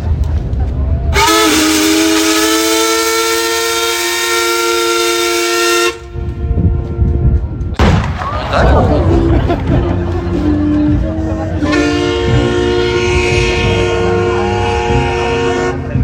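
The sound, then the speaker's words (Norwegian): Steam whistle blasts from the paddle steamer Skibladner, a salute for its 170th anniversary. Two long, loud, harmonic tones are separated by a stretch of rough, noisy sound. “Vi vil straks fyre av en salut til ære for Skiblander som fyller 170 år I dag.”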